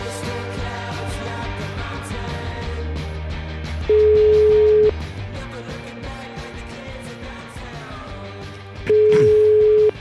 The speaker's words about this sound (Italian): Il telefono che squilla. È il mio.